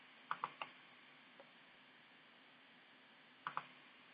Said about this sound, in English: So I'm going to type a message in.